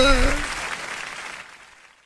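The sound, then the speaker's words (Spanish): Applause starts under a brief voice, then steadily thins and fades away to near silence. “¡Bravo! ¡Para el aplauso, hombre! ¡Para el aplauso!”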